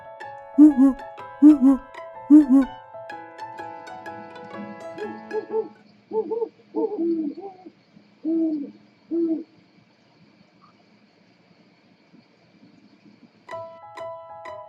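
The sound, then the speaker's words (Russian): Owl hooting in a series of short, hollow, low calls, a few in quick succession near the start and more spaced out later, separated by quiet gaps. “Сова говорит уху.”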